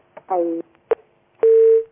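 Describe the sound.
Telephone line tones on a failed call: a short buzzy tone and a brief beep, then a longer steady tone that holds for a moment before cutting off.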